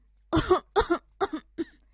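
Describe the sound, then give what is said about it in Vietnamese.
An old man coughs violently after jolting up from bed: four harsh, rasping bursts come in quick succession, the first ones heaviest and the last weaker. “Ông lão bật dậy khỏi giường, ho sòng sọc.”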